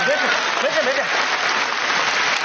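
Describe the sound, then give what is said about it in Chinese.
Audience applause at an entrepreneurship-themed stage show: dense, steady clapping that fills the whole stretch, with a voice briefly audible over the start. “来掌声鼓励一下”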